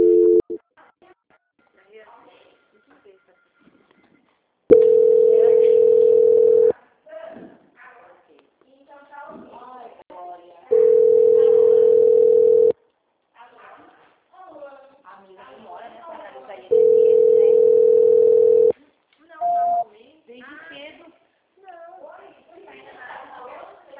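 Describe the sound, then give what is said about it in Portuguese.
Telephone tones play while a call is being transferred: three long, steady beeps of about two seconds each, plus a few shorter ones, with people talking in Portuguese between them. “Só um minutinho, vou transferir a sua ligação para uma outra auditoria. Ok. Transferência.”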